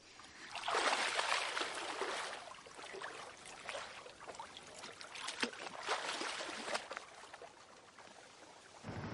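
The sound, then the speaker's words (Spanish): Gentle water sloshing and trickling as a boat leaves a village harbour. The sound is faint and steady, with small splashes scattered through it and no voices. “Un barco sale del puerto del pueblo compuesto por numerosas casas blancas.”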